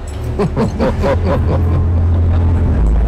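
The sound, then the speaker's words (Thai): A car arrives with a loud, steady low engine rumble that runs throughout. A man's voice speaks over it during the first half. “คุณท่านครับตอนนี้รถมาถึงพอดีเลยครับเราไปกันเลยไหมครับ”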